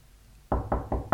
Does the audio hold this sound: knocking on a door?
yes